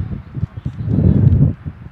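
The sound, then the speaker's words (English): Strong, rough wind gusting across a soccer match, heard as uneven low rumbling bursts that swell and drop, with no clear voices. “This wind is rough.”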